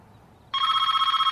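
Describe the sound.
A telephone bell starts ringing abruptly after a quiet moment, a loud, bright, continuous trilling ring that holds steady to the end.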